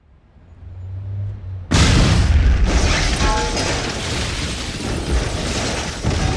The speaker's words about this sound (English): the front facade of an otherwise innocuous-looking government building suddenly exploded, sending an oily black cloud of smoke